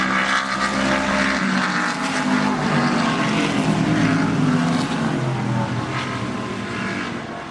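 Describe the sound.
Loud, continuous engine roar from race cars climbing an uphill stretch, a dense, steady drone that holds strong throughout with no voices over it.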